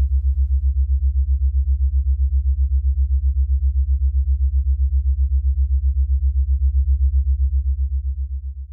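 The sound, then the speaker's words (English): Binaural beat tone imitating the Schumann resonance: one low, pure hum pulsing in a steady, rapid rhythm throughout, tapering off at the end. “play a sound through a binaural beat form that's been kind of created to give the impression of what it would actually sound like, what the Schumann resonance sounds like.”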